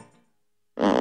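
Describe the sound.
A fart sound effect: a faint, fading rasp gives way to a short silence, then a loud, buzzy, sputtering burst fills the end.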